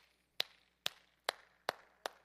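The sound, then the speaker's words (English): Five sharp, evenly spaced hand claps from a single person ring out alone against near silence, each a crisp, bright snap that quickly dies away. “I'm clapping just to get your attention.”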